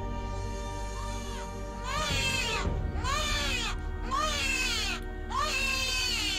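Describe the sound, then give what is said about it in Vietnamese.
Eerie crying of ghostly babies: a few long, high, wavering wails that rise and fall, one after another over a steady background drone, with no talking. “Thì bất giác, những tiếng trẻ con khóc ma mị vang lên.”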